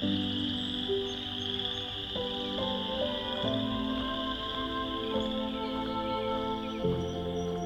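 Chorus frogs calling from a swamp east of Hamilton, Ontario, on a late-March evening, many overlapping trilling calls forming a continuous, moderately faint chorus with shifting pulses and no voices.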